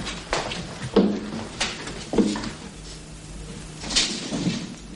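Knocks and scraping rasps of a secret door as two young men slip out of a bar's storeroom in a 1989 drama, a few uneven thuds and sliding sounds against a low background hiss.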